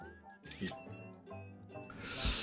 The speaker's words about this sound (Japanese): ちょっと写真にも収めておきましょうか。